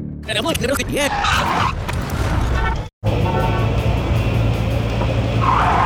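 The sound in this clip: A car's tires skid and screech as it nearly hits a pedestrian on a street, a loud, noisy rush with engine roar broken by a brief gap of silence midway before resuming; voices are heard early on.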